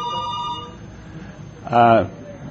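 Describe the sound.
Telephones ringing with a steady electronic tone that holds briefly at the start, then drops away to quiet background before a short, louder tonal burst near the end.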